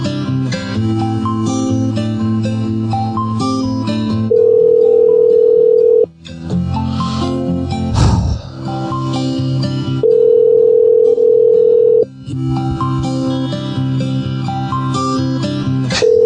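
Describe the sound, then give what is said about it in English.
Ringback tone of an outgoing call to a cell phone: a steady, mid-pitched tone comes in long bursts that repeat at regular intervals, with music playing underneath throughout. “Well, anyway, I'm going to call her phone.”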